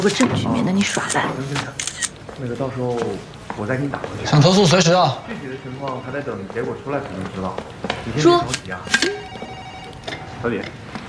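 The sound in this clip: A camera shutter clicks as a photo is taken as evidence, a brief sharp snap near the end, heard under steady overlapping conversation between several people.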